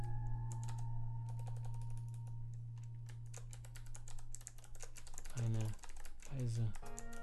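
Typing on a computer keyboard: rapid, irregular key clicks in quick bursts, moderately loud over a steady low hum, with no voices.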